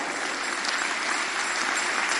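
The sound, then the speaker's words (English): An audience claps at an evangelistic church sermon in a brief, dense, steady burst of applause that is fairly loud and even throughout, with no talk. “Thank you, those of you who are clapping. Your hands will never be empty.”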